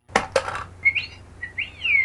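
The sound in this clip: Dice popping inside a Pot-O-Matic bubble dice popper: two quick, sharp rattling clicks, followed by a run of electronic, bird-like chirps and whistles.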